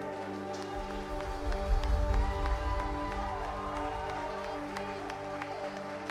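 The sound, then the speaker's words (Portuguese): A church audience applauds, a dense, steady patter of many hands clapping that swells in after a moment and continues over sustained musical tones. “Aplauda o nome dele, amém?”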